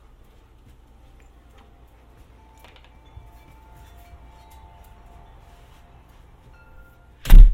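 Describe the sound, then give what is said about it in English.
Something is slammed shut by a gust of wind with one heavy, loud bang right at the end. Before it there is a long stretch of faint low rumbling and only a few soft knocks. “Oops. Didn't mean to slam that. Wind caught it.”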